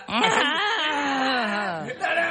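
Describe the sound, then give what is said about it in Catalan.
Newborn baby crying in one long, loud, sustained wail whose pitch slowly sinks, ending in a short catch of breath and a fresh cry. “Aquest nen, aquest plor, és nou, no?”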